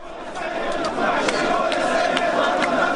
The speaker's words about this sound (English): that's the sound of hundreds of thousands of Iraqis marching in the southern Iraqi city of Najaf today, marking the fourth anniversary of the fall of Baghdad with a protest calling for American withdrawal.